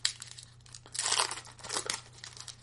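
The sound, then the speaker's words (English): The wrapper of a pack of 1993-94 O-Pee-Chee Premier hockey cards is torn open. The crinkly ripping comes in a few bursts, loudest about midway, then fades to softer rustling and crackling with no voices. “There we go. The sound of card. What year did I say it was? 93-94 Opeachy Premier.”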